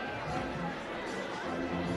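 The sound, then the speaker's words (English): Crowd chatter fills the stands at a baseball game in Kannapolis on a hot Sunday afternoon, a steady, even murmur of many voices that runs through the whole clip without clear peaks. “But a good crowd sticking it out for what's been a very fun baseball game.”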